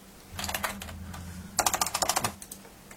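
Computer keyboard typing as a search query is entered: two quick bursts of clicking keystrokes, the second denser and faster, heard faintly and alone.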